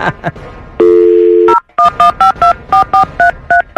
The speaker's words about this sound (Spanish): Entonces vamos a marcar a Guadalajara. Permíteme la línea telefónica.